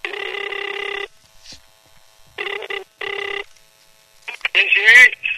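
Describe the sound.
An outgoing telephone call rings out: one long buzzing ring tone, then a pause and two shorter tones close together, before a voice briefly speaks at the end.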